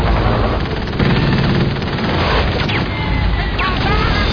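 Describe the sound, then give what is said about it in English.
Gunfire shooting from the water makes a loud, dense barrage of rapid shots and booms that runs without a break for the whole stretch. “Something's shooting at us from the water!”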